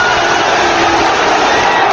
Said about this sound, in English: Cheers as England are through to the semi-finals of the World Cup.